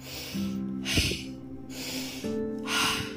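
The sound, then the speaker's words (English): Forceful, continuous breathwork with breaths drawn in through the nose and pushed out through the mouth: a few loud, rushing, whooshing breaths in steady succession, some with a slight voiced edge. “So this is called the halo active breath. And it sounds like this.”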